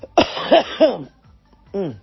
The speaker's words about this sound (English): Pardon me, I still got some cough left.